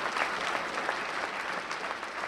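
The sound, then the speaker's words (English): Applause from about 200 college students as Cain takes the stage at the Kellogg Center at Michigan State University, a steady, dense patter of many hands clapping throughout. “200 college students cheered as Cain took the stage at the Kellogg Center at Michigan State University.”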